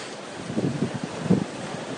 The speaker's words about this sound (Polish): to tak naprawdę promenada wisząca nad wodą. Targana falą, zmoczona falą i dziś w zasadzie ciężko przejść ją suchą stopą.